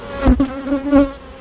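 A swarm of honeybees buzzes in a steady, loud drone with a few swelling surges in volume and no voices.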